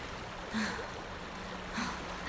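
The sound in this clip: Water flooding into a basement: a faint, steady rushing wash with two brief, louder surges of pouring water.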